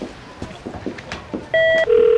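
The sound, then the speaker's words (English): A telephone sounds for a call with two sustained electronic tones, the second slightly lower than the first. Soft clatter and background noise come before them. “Get Ashley on the phone, please.”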